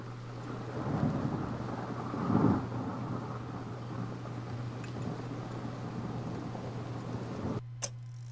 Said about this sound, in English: The rain battered the trees and froze my bones.